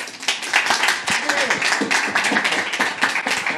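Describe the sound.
Audience applause welcoming a speaker to the front, a dense, steady wash of many hands clapping that runs through the whole stretch, with voices mixed in.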